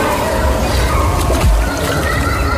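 Water churns and splashes loudly as a boy dives in cleanly without a belly flop, a dense sloshing burst lasting just over two seconds.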